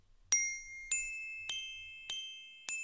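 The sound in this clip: Five evenly spaced bright chime dings signal time, weather and community announcements, each ringing tone struck sharply and left to decay before the next, with no talk over them.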